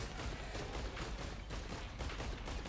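Rapid gunfire in the video game Risk of Rain 2: a dense, unbroken volley of shots that stays loud and steady throughout, with no clear pauses between bursts.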